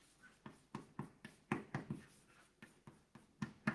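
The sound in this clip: Handwriting during a math lecture: many short, scratchy strokes in an uneven but steady rhythm, each a crisp tap with a brief scrape, clearly audible against a quiet background.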